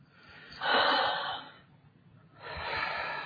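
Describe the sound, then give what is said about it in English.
A deep breath heard alone as two soft, airy breath sounds separated by a short quiet pause, each swelling and fading gently. “Take a deep breath.”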